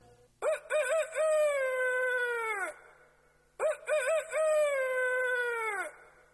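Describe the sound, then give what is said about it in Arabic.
A rooster crows twice in the morning. Each crow opens with a few quick stuttering notes, then stretches into a long held, harmonically rich call that drops off at the end, with a short pause between the two. “الديك في الصباح يصيح في البطاح يقول في انشراحي حيا على الفلاح”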